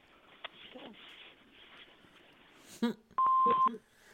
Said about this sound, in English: Leave a message at the beep.